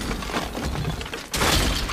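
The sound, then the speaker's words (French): A combat-torn wall collapses in a film scene, a dense, noisy crumbling rush that dips briefly and then surges louder and brighter, holding steady to the end. “un bout de mur complètement déchiré par le combat tombe par terre.”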